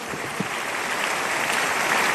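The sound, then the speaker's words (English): Congregation applause, a big clap of praise to the Lord during a church testimony service: dense, many-handed clapping that swells slightly louder toward the end. “Give the Lord a big, big clap of praise.”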